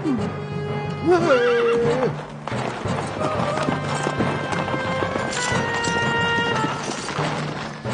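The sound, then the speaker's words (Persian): A governor's horse gives one loud, high whinny early on, while steady clip-clopping hooves continue throughout. “به گمانم اسب حاکم با خودش است.”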